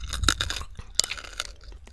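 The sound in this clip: Teeth bite into rock-hard, home-baked Pompeii-style bread, giving many dry, sharp crunches followed by rough chewing, fairly close and with no talk.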